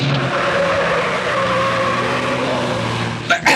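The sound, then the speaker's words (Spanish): A car brakes hard and its tires skid in a long, loud, sustained screech over engine noise as it heads toward a stone and brick wall at the end of a dead-end alley, ending in a short burst of noise. “Y de pronto, Rostov ha tenido que aplicar bruscamente los frenos.”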